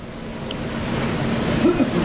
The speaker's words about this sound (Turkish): Arkamda görmüş olduğunuz bu limandan harekete geçti dün kazazede gemi